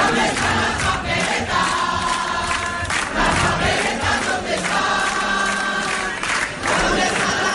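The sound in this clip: A crowd in Madrid sings a song together, many voices holding sustained sung tones in loud, continuous phrases that swell and ease rhythmically throughout.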